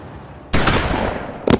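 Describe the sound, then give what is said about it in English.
Gunshots: a loud, sharp blast with a long, decaying rumble, then a second abrupt shot cutting in near the end. “I heard shots.”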